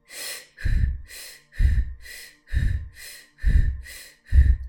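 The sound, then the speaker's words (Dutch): A person breathes in and out in a steady, even rhythm, about five full cycles, with airy hissing breaths alternating with heavier, lower-pitched ones and short pauses between them. “Okay, je mag langzaam beginnen met in- en uitademen.”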